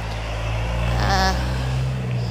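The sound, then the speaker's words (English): An engine fires up close by behind a hospital, a steady low rumble that swells briefly in the middle before settling back to an even hum. “I can hear the sound of an engine firing up right next to me.”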